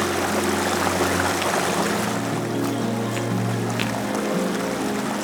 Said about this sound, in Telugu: This place is called బ్రిగు water falls.